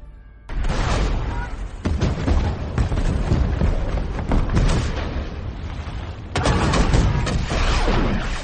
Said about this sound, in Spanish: Los días se fueron sucediendo y los bombardeos turcos se convirtieron en una pesadilla. Sin descanso, sus piezas abrieron fuego tanto en el bastión inglés como en el de Provenza